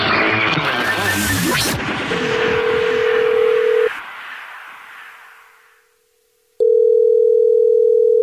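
Telephone tones as a caller is rung back: a steady electronic tone emerges from a noisy burst and cuts off. After a brief near-silence, a loud continuous tone returns and holds.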